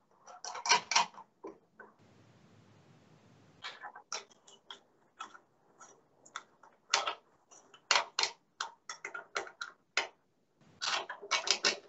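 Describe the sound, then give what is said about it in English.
A bolt being tightened with a spanner makes many faint, sharp metallic clicks and ticks in irregular bursts, with a quieter hissing stretch partway through. “So what I decided to do was to make the point was to bolt, and I hope you can see this. I'm bolting.”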